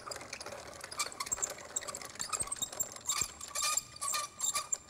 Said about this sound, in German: Und der kommt jetzt da in die Mühle. Der wird ein bisschen gemahlen.